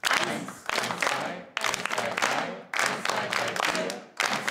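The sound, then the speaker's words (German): A group claps together in time during a rhythm exercise. The loud, dense clapping comes in bursts separated by brief pauses, with each burst tapering before the next begins. “Die Gruppe soll in dieser Rhythmusübung gemeinsam im Takt klatschen. Dafür müssen sie die Abfolge erstmal herausfinden. Und wir machen es mal alle mit und wir sprechen es mal alle mit, okay?”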